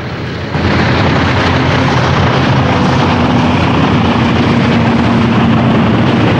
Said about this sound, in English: Touching down, the twin-engine plane trails a plume of white spray.